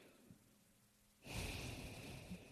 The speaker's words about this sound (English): So I'll just do, and we can do this together. Sure. Just breathe,